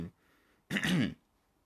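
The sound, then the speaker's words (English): A single throat clearing, one short, loud, rasping burst standing alone after a brief faint breath. “sorry, got to clear my throat.”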